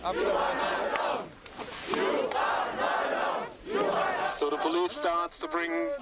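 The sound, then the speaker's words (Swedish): A crowd chants loudly and rhythmically at a protest as three police officers carry away a demonstrator. Massed voices rise and fall in a steady repeated cadence, with a sung melodic phrase toward the end. “Men så här lät det i alla fall då när tre poliser bar iväg Greta.”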